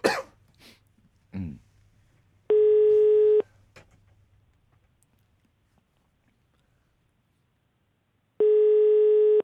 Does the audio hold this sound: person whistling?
no